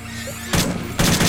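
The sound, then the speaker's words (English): Video game gunfire shooting out lights: two loud bursts of rapid shots break in one after the other over a low, steady hum. “I wonder if I can shoot these light ones. Yeah, I can. God, I can shoot lights.”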